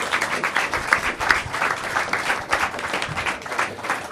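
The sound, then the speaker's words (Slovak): Audience applause for a speaker at a club event: many people clapping with sharp, distinct claps popping out of the steady patter, sustained at a fairly even level throughout. “Ďakujem, mám to rád, tlieskajte mi, hej.”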